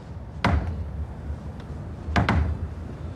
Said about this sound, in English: From now on, it's three knocks like this.